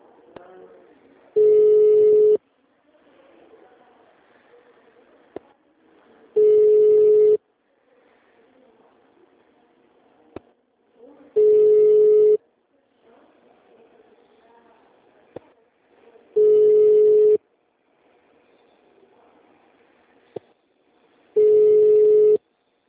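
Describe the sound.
Telephone ringback tone on an outgoing call: five evenly spaced, steady single-pitch rings, each about a second long, with quiet pauses between that carry faint background noise and murmur.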